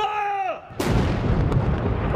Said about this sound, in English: Fire! Cannons thundered 90 shots.